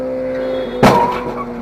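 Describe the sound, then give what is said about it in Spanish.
A motorcycle crashing into a vehicle at a traffic light during a street race between two riders in Australia: a steady engine drone, then a single sharp, heavy impact that fades quickly back into the hum. “La primera moto logró pasar justo antes de que el semáforo cambiara a rojo, pero la segunda se estrelló de lleno contra este vehículo.”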